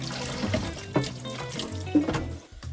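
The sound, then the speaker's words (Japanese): Bouillon poured into a pot for onion gratin soup: a steady splashing, trickling stream of liquid with a couple of louder bumps as the pour shifts. “このあとブイヨンを注ぐんですけどブイヨンが1リットルいるって書いてある”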